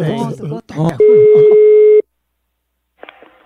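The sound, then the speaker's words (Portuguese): A single steady telephone ringback tone, about one second long, sounds while a call is being placed. A voice talks just before it, silence follows, and a short faint sound comes near the end. “Eu vou ligar agora pra Fabrícia.”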